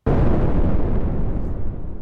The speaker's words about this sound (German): zünd die Bombe. Mach ich.